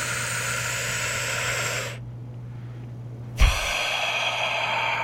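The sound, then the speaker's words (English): A long, airy breath out during a guided deep-breathing relaxation exercise: a steady rush of air for about two seconds, then a quiet pause before another long breath begins with a soft thump. “And one more time. Super emphasis on the exhale. Just let everything go and relax.”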